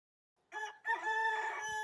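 A rooster crows loudly, a harmonic call that opens with a short burst, breaks briefly, then holds a long, steady, slightly wavering note to the end, with no voices.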